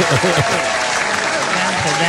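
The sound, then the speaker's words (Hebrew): Applause from a group during a quiz game: dense, steady clapping fills the whole clip at a loud, even level while a voice speaks over it. “מגיע לכם כפיים”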